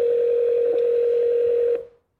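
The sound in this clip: A single steady telephone tone on a phone call holds level for nearly two seconds, then cuts off with a brief fading tail. No voices are present.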